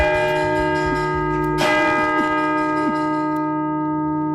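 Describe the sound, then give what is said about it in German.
Church bells ringing in a church bell tower in Ulm, a dense, sustained metallic peal with ringing overtones throughout and one loud, bright strike partway through. “Dann folgte unmittelbar das Läuten.”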